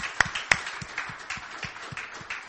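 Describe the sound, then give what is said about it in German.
A church audience claps in appreciation for Jesus during a bilingual service, many sharp hand claps falling in a quick, fairly even rhythm, with a couple of louder claps near the start. “Give Jesus an appreciation. Lasst uns Jesus mal klatschen.”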